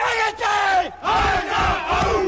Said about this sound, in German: Und wie sich die Rostocker vor einem Spiel so richtig heiß machen, das hört sich so an.